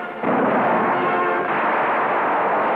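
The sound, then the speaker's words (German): A Panzerfaust anti-tank weapon fired in a German town: a sudden loud blast that carries on as a harsh, sustained roar. “Panzerfaust schießen in einer deutschen Stadt.”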